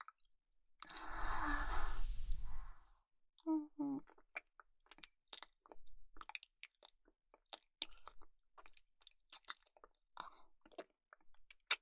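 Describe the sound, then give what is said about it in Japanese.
Wet chewing of a mouthful of rice: a long, loud, rustling burst opens, then many small moist clicks and squishes follow in an uneven rhythm. “まずは、君が食べやすいように、お姉ちゃんがご飯をかみかみしてあげるね。”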